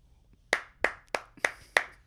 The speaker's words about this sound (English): Studio audience, as always, goes nuts.